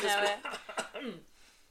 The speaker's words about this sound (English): Sorry, I just got a cough.